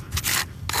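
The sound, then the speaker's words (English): Harsh rasping scrapes from a plastic snow scraper dragged over the rough, cement-crusted base of a polished granite gravestone in a cemetery, coming in a few gritty strokes with a brief pause between the two main bursts. “using a plastic snow scraper on the rough base of a polished granite monument.”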